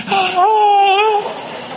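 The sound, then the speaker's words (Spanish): A crying scream of the kind paid for in mourning: one loud, sustained, wavering wail that holds for about a second and then trails off. “llanto con grito como ese que acaba de sonar”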